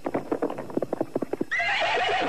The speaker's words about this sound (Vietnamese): Đoạn chàng dục ngựa chạy về hướng nam.